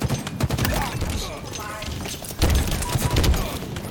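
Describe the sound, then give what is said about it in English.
A grenade explodes in a shooter video game amid dense gunfire: loud, broad bursts and heavy thuds packed together, with a strong surge of impacts about halfway through. “Wow. That was my grenade. I'm sorry. That killed me?”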